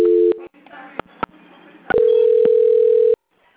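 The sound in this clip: Telephone tones during a call transfer on a bank quality-control call: a brief steady low tone, a few clicks, then a sustained steady tone of just over a second before quiet.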